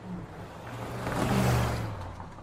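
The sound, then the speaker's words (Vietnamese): A car speeds away, its engine swelling to a peak partway through and then easing off in a short, steady rush, with no voices. “Vừa nói, Nghĩa Sẹo vừa kéo bạn mình lên xe rồi tiếp tục phóng đi.”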